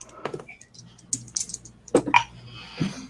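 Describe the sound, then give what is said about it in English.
Keys click on a computer keyboard as someone types during a tabletop role-playing game. A few sparse, quiet keystrokes come in small irregular bursts, with gaps of near-silence between them. “I need my fingers to type.”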